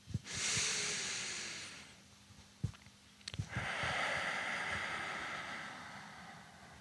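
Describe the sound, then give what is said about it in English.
A group in a room takes a deep breath together: a long, airy hissing inhale, a brief pause, then a longer, broad, rushing exhale that fades gradually. “Let's take another deep breath together and suck in all that love.”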